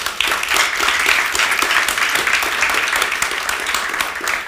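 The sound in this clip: Audience applause welcomes author Rachel Kushner onstage at a book talk, a dense, steady wash of clapping that holds at an even loudness for several seconds with no voices over it.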